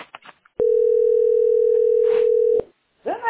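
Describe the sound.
A telephone ringback tone sounds on an unanswered call, one long, steady, mid-pitched beep of about two seconds, with brief voices just before and after it.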